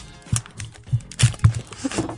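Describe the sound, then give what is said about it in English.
Sticky tape being torn and handled to fix a microphone in a radio studio: a few short, scratchy rips with dull thumps, uneven in rhythm, with no talking. “I've got to break this tape now.”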